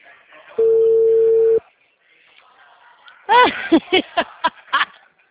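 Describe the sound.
A telephone call fails to connect. A steady electronic tone lasts about a second, then after a pause comes a quick run of short, chirping tonal bursts.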